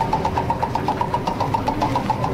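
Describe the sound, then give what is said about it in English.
A prize wheel spins during a giveaway, producing a fast, even run of ticks over a continuous rumbling noise throughout. “As we spin the prize wheel, round and round she goes.”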